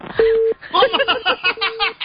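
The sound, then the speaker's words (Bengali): A telephone rings with an incoming call: three evenly spaced, steady mid-pitched tone pulses. The first sounds alone, and the other two come under people talking. “ওই phone আসছে একটা”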